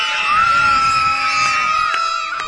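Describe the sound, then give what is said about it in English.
A group of children bobbing in a lake at summer camp shout their team battle cry, one loud, sustained, high-pitched yell lasting the whole clip. “Can I hear your battle cry? Yeah!”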